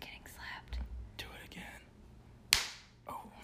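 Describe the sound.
A single sharp slap strikes a person's skin, a crisp loud smack that rings out briefly amid quiet, whispered talk before the voices return.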